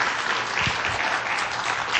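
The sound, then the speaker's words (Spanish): Steady applause for a team: dense, continuous clapping from a crowd holds at an even level throughout, with no talking over it. “yo les pido un aplauso al equipo que hace Prisma RU”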